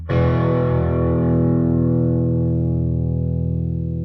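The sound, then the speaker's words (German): Medium crunch distortion from a 10-watt Studio 10 studio guitar amp: a single chord struck once, then sustained as a thick, gritty ring that fades slowly on its own. “ich stelle mal gleich so einen mittleren Crunch-Sound ein am besten, dass du mal merkst, was der da so kann.”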